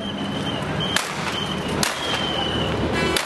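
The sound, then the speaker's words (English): Sharp bangs from police firing tear gas and rubber bullets at a large protest outside Dhaka, Bangladesh, in November: two loud cracking reports and a fainter third near the end, over a steady, noisy background. “Our translator in Bangladesh, Salman Saeed, captured this sound of police firing tear gas and rubber bullets at a big protest outside the capital city of Dhaka in November.”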